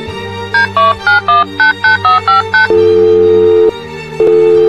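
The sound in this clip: A telephone is dialed to call a plumber: nine short touch-tone beeps in quick succession, then two long, steady ringing tones.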